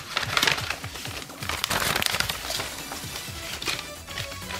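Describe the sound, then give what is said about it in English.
A paper envelope being torn open, with crinkling, rustling bursts of tearing and handling that come in uneven waves, louder at the start and middle. “So, another envelope is being opened then. It is. I get to do this one.”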